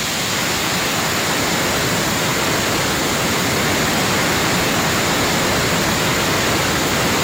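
A waterfall swollen by the year's heavy rains roars in a steady, dense, loud rush of water that carries on without break, with no voices.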